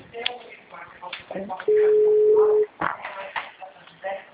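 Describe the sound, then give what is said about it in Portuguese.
A telephone line tone after a dropped call: one flat, steady mid-pitched tone lasting about a second, sounding between stretches of people talking. “Ah, então, começou a tocar uma musiquinha aqui pra mim, acho que caiu a ligação, na hora que a gente tava conversando.”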